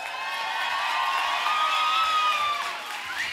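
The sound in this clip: A concert audience cheers and whoops for an orchestra, a loud, continuous wash of high voices and whistles with one tone sliding downward near the end.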